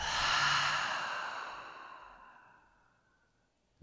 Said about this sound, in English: So inhale in through the nose. Open the mouth.